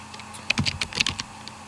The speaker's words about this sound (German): Oder wie ich es jetzt hier einfach mal mache, ich drücke Command und L. Dann wird nämlich ein Alias erzeugt.